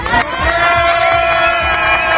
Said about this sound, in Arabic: كما ترى معي جماهير مغربية أتت لتؤازر المنتخب المغربي وتشجع هذا المنتخب والذي رفع سقف طموحات الجماهير المغربية.